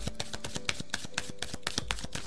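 Tarot cards are handled as one is drawn from a deck, making many quick, faint papery ticks and taps in an uneven rhythm.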